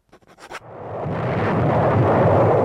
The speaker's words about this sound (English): The naval bombardment continues.